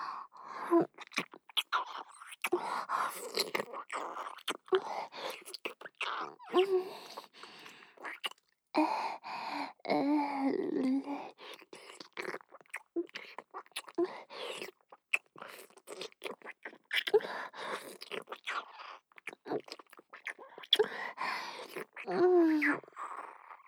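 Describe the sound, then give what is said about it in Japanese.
Deep kissing with wet mouth sounds: many quick smacks, sucks and lip noises run almost continuously, in irregular clusters separated by brief pauses, soft to moderate in level. “ちょっとディープキスしただけなのに”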